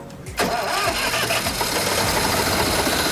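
An engine started with its ignition key cranks and catches abruptly after a brief quiet moment, then settles straight into a loud, steady running roar that continues to the end.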